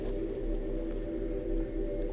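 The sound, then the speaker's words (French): Faint birdsong in an icy forest: a few thin, high chirps come and go briefly above a steady low drone. “où quelques éclats de chants d'oiseaux à peine perceptibles rebondissent ici.”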